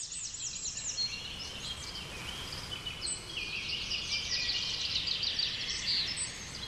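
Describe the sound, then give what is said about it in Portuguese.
Birds sing without pause in a garden in Giverny, France. Quick, high chirps and trills repeat over a steady, breezy hiss of wind. “Os pássaros cantam sem trégua e a brisa volta a soprar.”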